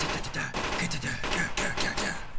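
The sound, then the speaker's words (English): Dense, rapid gunfire plays as a sound effect for mobsters shooting around a room in a tabletop roleplaying game. The crackling bursts overlap continuously with no clear gaps. “So mobsters all around the room are shooting.”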